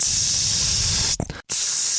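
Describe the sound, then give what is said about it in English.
A long perfume atomizer sprays a knockoff fragrance in one continuous loud hiss that runs for over a second, then sputters, cuts out briefly and resumes. “it was essentially spraying myself with Glade, you know, like a constant spray.”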